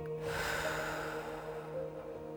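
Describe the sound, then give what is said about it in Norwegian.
A slow, calm exhale during a guided relaxation breathing exercise, heard as a soft airy breath that flows out steadily for about two seconds over a quiet, steady background drone. “Kjenn at lufta fyller deg. Og pust rolig ut.”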